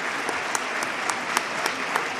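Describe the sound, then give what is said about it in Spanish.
Brotherhood members give long applause to the Holy Week proclaimer in the Teatro Infanta after his proclamation. The clapping is loud, thick and sustained, with a few sharper claps standing out now and then. “Continúan el aplauso, el largo aplauso al pregonero por parte de los cofrades que hoy se dan cita en este Teatro Infanta”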